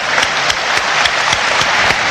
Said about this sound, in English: I think we should give them an applause.